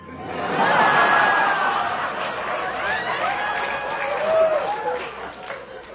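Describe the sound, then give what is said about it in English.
A cinema audience at Prague's Aero Cinema watching a Bollywood film at a festival screening, with a dense wash of crowd murmur and scattered laughter that rises and ebbs at moderate volume. “Now that's the sound of the audience at Prague's Aero Cinema enjoying the film Mir Zara being shown as part of a festival of Bollywood film.”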